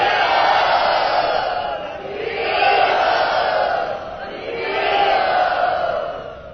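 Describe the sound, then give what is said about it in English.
A large crowd loudly chants Hari Bol in unison, the massed voices swelling and easing in a few repeated waves, loud and continuous throughout. “please welcome my mother and father to Bombay and give them your blessings by loudly chanting Hari Bol.”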